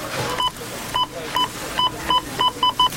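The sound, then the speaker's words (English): Checkout scanner beeps ring out at a busy Rona store till: many short, high, identical electronic tones that come faster and faster over a murmuring background. “You know it's Rona week when the checkout sounds like this.”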